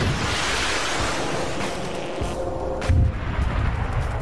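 Artillery fire during an infantry training exercise: a single heavy boom bursts out over a broad, wind-like rumbling roar that fills the whole clip.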